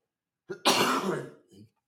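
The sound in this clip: A person with a dry throat from long talking coughs and clears their throat. A brief catch leads into one harsh, rasping burst of about half a second, followed by a short, softer grunt, with no speech around it.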